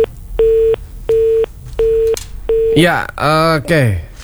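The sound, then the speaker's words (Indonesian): Telephone busy tone after a dropped call: four short, steady mid-pitched beeps at even intervals, then a voice starts speaking loudly. “saudara pendengar, kita terputus dan kita masih mencoba ya untuk menghubungi kembali Bapak Yudi Cahyono.”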